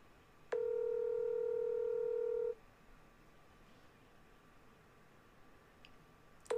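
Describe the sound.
An outgoing phone call rings out to voicemail: one steady, mid-pitched ringback tone lasts about two seconds, then falls silent, and a second ring begins just at the end.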